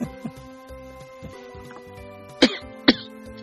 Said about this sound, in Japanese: でもすごい咳が出るの。乾燥しとるのかな。